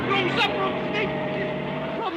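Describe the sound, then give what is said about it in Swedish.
A car reverses and accelerates with a steady, droning engine hum. Voices can be heard over the running engine. “Lägg i backen och trampa på gasen innan det blir folksamling. Nå, trampa på gasen nu så vi kommer härifrån.”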